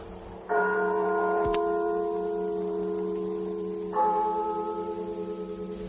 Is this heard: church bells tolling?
yes

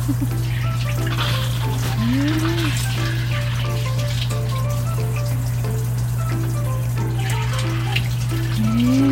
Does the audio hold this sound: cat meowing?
no

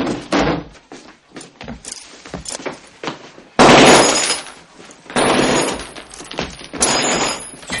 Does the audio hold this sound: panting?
no

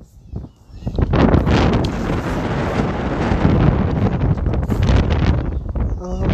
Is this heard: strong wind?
yes

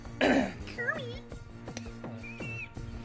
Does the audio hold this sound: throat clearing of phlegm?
yes

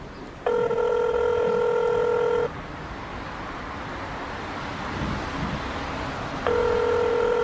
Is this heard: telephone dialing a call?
yes

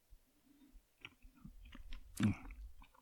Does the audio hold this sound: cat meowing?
no

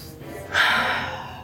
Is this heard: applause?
no

